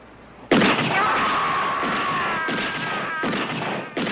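Gunshots fired at police officers on a New York City street: a sharp, loud blast opens, then a few more heavy bursts cut through a sustained, ringing wash of noise.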